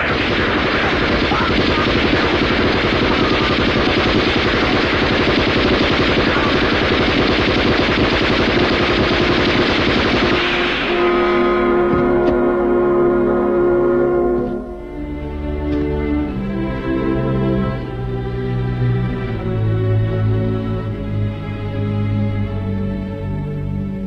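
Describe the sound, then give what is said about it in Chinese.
Dense, continuous gunfire in a wartime story scene with grenades, a loud steady crackling roar lasting about ten seconds before giving way to tonal sounds. “开枪打吧！快点，快点！”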